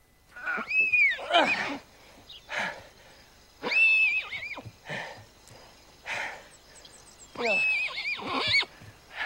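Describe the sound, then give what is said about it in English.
A young colt whinnies as it struggles in a grassy field. Several shrill, quavering neighs are spaced apart, with snorting and breathy sounds between them. “He crouches beside the young horse as it struggles.”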